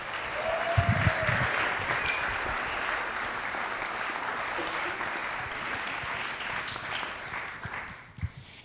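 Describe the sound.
An audience at a church gathering applauds to welcome guests onto the stage, a sustained wash of clapping that holds steady before tapering off at the end.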